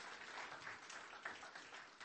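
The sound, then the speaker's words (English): Faint applause from an audience clapping for children at a youth night: a dense, steady patter of many hands with no voices over it. “Let's give all the kids one more big round of applause for their hard work.”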